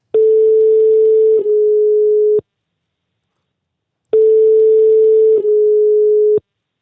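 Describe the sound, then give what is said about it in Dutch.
A telephone line tone sounds while a call is placed: two long, steady mid-pitched tones, each about two seconds, separated by a gap of silence, with no voices. “Ik zou zeggen, laten we bellen met eh, ja, niemand minder dan Dylan van Baarle.”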